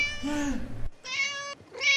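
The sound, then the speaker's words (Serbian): A black-and-white tomcat meows three times: a long, drawn-out call, then a shorter, brighter meow, and a third that is cut off at the end. “I jedan crno-beli mačar dolazi kod mene stalno da se mazi.”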